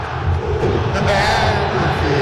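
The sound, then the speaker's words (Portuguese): Football crowd chanting in Mineirão stadium during a Cruzeiro match, fans taunting an opposing player with a chant about cashew juice. A dense, steady roar of many voices fills the whole clip at constant loudness. “Olha a torcida convidando o Jardim a tomar suco de caju.”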